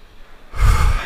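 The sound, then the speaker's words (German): A deep, breathy exhale from someone resting after a breathwork session, a soft rushing breath that swells suddenly about halfway through and holds to the end, with no talk. “Ich atme gerade, weil wir gerade eben hier, wir hatten ja einiges an Aufregung heute Morgen, das hast du ja auch mitbekommen, dass dann das Setup ein bisschen länger gedauert hat. Und wir haben gerade eben eine Breathwork-Session gemacht.”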